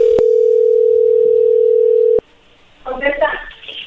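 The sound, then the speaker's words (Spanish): A steady, loud telephone dial tone drones for about two seconds while a call is being placed, then stops abruptly. A voice follows briefly afterward. “Bueno, pues vamos a llamarle, ¿no? O sea, a ver qué pasa.”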